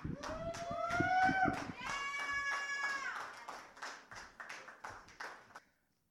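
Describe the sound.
An audience at a poetry slam semi-final claps and cheers for the next poet, with loud whoops at first, then the clapping thins into scattered hand claps and fades out.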